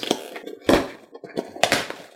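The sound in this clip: Handling noises as a gift package holding an envelope and a bottle of pills is opened: a few short rustling, tapping bursts with quiet gaps between them, and no voices.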